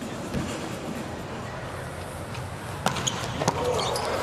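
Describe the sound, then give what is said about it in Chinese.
A volleyball serve by Lagumdžija is struck during a match: a sharp slap, then a second thump a moment later, over a steady, continuous background roar. “拉古姆奇亚的发球，”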